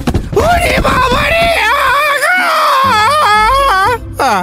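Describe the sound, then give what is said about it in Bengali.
A thin man's sudden hideous scream, voiced in a Bengali radio story: a loud, drawn-out, wavering shriek whose pitch rises and falls for several seconds. “এমন সময় রোগা শুটকো মতো একটা লোক হঠাৎ বিকট চিৎকার করে সবার মাঝখানে পড়ে গেল।”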